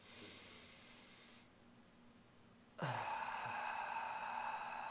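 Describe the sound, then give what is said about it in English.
Deep breathing through the nose into the chest: a soft airy breath, a short quiet pause, then a louder, longer rush of breath that holds steady to the end, with no voices. “So deep breath through my nose and kind of breathe into my chest. Really like breathe, like just clean air right into it, and then breathe out.”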